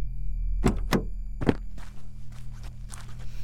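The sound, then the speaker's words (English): A car hood is popped open on a car with a suspected failing radiator: a few heavy, dull thunks come close together in the first half, followed by softer scuffing and shuffling sounds, with no talking. “I'm gonna pop the hood, see if there's anything on fire or bleeding.”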